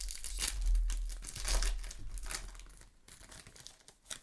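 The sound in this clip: Faint crinkling and tearing of a foil pack of hockey trading cards being opened, soft rustling bursts with a couple of louder crumples.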